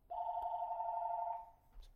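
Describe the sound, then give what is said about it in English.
A telephone rings once in the background, a steady, faint electronic trill lasting just over a second and then fading, with no other sound around it. “Spam is just lighting us up today. Sorry, apologies if you hear the phone ringing in the background.”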